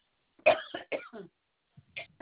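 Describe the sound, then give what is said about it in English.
Several sharp, throaty coughs from a woman with a tickle in her throat, coming in quick succession, then a brief pause and a couple more rough bursts. No words are spoken. “hang on a minute, I got a cough.”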